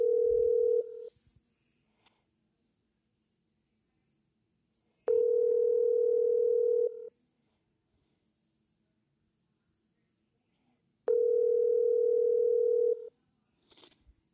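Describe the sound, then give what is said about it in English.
Steady telephone line tones sound while a phone call is placed. Three long, even tones of about two seconds each are separated by long silent gaps, with faint clicks near the start and end. “Dialing”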